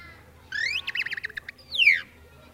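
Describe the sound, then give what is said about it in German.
A tit calls: a rising high whistle, then a rapid run of short chirps, ending in a louder downward-sweeping whistled note, all over a faint low hum. “Ja, na ja, aber vielleicht hört ihr doch lieber eine Meise.”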